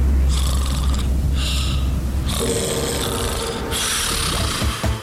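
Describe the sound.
Loud, raspy snoring in several long, drawn-out breaths, heard alone as a sound effect.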